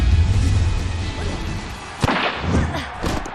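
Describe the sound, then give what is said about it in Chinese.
A football shot hitting the goalpost in a school team match: one sharp, loud smack that stands out from steady background noise. “哎呀，第一脚射门就打中了立柱，人虎队差一点就先胜 了。”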